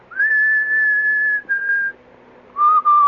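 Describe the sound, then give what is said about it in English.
A person whistles a tune of his own making: long, pure, held notes in a few phrases, the last phrase pitched lower than the first, clear and alone. “I don't know why it is. Ever since I was a kid, I was always going.”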